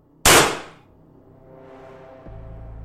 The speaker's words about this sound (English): with a muzzle flash, a puff of smoke, and a deafening bang